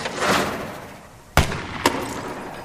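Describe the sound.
Gunshots ring out in a comedy film scene, two sharp reports about half a second apart, the second a little weaker.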